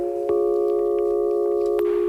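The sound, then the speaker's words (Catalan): A steady chord of several pure electronic tones forms a sound portrait of actress Nicole Kidman's face, with notes taken from her hair, skin, eyes and lips. It begins after a brief click and holds unchanged, with another faint click near the end. “l'actriu Nicole Kidman sona particularment bé. De fet, sona així.”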